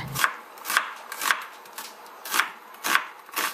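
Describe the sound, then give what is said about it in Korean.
Knife strokes as fresh cucumber is sliced very thinly into long strips on a board: seven sharp, evenly spaced cuts in a steady rhythm, alone with no talk. “시작은 오이를 아주 얇게 길게 썰어주세요. 말아줄 거니까.”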